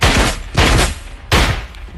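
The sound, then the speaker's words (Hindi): Revolver gunfire as a sound effect: three loud, booming shots at uneven intervals, each a sharp crack followed by a long rumbling decay, with no voices. “BN ने अपनी revolver निकालकर उन पर fire करना शुरू कर दिया।”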